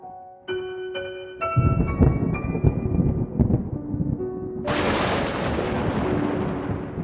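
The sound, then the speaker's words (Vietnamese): A lightning strike brings a sudden bright crack of thunder that spreads into a sustained rumble, cutting in over a sparse music bed of held notes and low tones. No one speaks. “Một tia sét lóe lên, xé toạc cả bầu trời và soi sáng cả căn phòng.”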